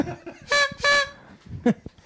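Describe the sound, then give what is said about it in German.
Toy party horns are tooted at a game night. Two short, bright, buzzy toots sound in quick succession, followed by a few softer scattered noises. “Ich habe euch jedem eine Tröte mitgebracht.”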